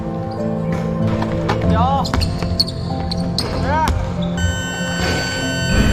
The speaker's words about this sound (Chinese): 为提升队员实战条件下的投篮命中率，每天训练最后阶段，队员们被分成四组，他们要在规定时间内完成高强度的投篮练习。